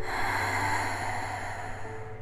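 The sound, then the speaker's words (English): Deep breathing, a steady airy rush of breath held at an even, fairly loud level for about two seconds before easing slightly. “Take some deep breaths. Go in and out.”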